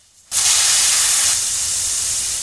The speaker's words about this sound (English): The air hissed out of them, and the tyres soon went flat.